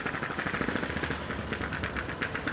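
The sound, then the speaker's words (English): Suitcase wheels whose rubber treads have come off clatter over small square paving stones on a Barcelona street, making a loud, fast, continuous rattle of hard knocks that never lets up. “this is the sound of my suitcase on the tiny little pavements,”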